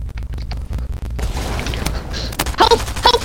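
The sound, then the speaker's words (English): Gunfire in a video game battle, a quick run of sharp, clipped shots followed by heavier booming blasts and scattered crackling bursts. “Just come on. I'm shooting people.”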